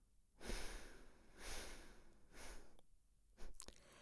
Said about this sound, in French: Donc c'était la droite, j'expire maintenant à gauche.